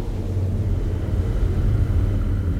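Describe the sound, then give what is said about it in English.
A spaceship lands with a loud, steady, low rumbling roar that stays even in level throughout, with no voices. “I think the distress beacon is working. Someone appears to be landing.”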